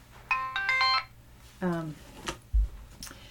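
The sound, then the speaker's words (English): A mobile phone ringtone plays two short bursts of bright melodic tones, the second briefer, followed by a low thump, with talk in the background. “That's my phone. Yeah, go ahead. I'm not going to answer. I'm just going to turn it off.”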